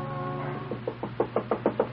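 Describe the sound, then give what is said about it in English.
Nervous knocking on a door: a quick, even run of many light raps, each knock short and sharp, starting after a moment of low steady hum and growing a little firmer toward the end. “Alaric, the family martyr, knocks nervously at Peg's door”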